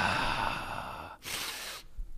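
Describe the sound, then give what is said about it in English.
A person demonstrates a big, deep gasping breath: a long breathy rush of air followed by a short, sharp, louder intake, heard alone without talk. “you haven't like finished yet, so you have to take a big, deep breath again”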